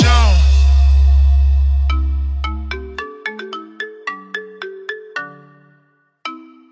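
A phone ringtone plays a quick melody of bright, plucked electronic notes. It begins as a deep bass rumble fades out, and after a short pause a single note sounds again.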